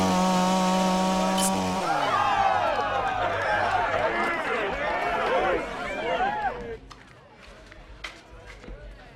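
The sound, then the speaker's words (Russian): A chainsaw is used to open a beer bottle: a loud, steady engine drone gives way to a dense, roaring rev with voices, then cuts off sharply near the end, leaving quieter scattered sounds. “Бензопилой открывают бутылку пива.”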